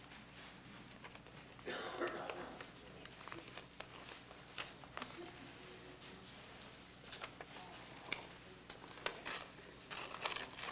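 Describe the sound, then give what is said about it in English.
Paper is torn as a sheet is ripped off and then torn in half. Faint crinkling, rustling and tearing bursts are scattered irregularly throughout. “Would you tear this off, please? Tear this off. And then tear this in half.”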